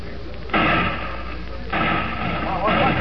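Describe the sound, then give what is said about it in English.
Gunshots ring out in a town, three loud, sharp bursts spread over a few seconds, each followed by a lingering broad crack that fades before the next. “Hey, what's going on here? Well, shots. Doggone, sounds like something doing in town after all”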